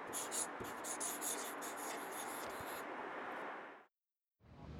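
A pen scratching on a slip of paper: a soft, continuous rasp of handwritten strokes that runs for several seconds, breaks off into a short silence, then starts again.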